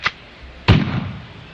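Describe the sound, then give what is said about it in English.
A shotgun sound effect, set off by accident in the middle of a football game's play-by-play, gives a sharp click followed by a loud booming blast that tails off over about a second. “Just out of nowhere, as Mark's doing the game, Scott accidentally hit a shotgun sound effect.”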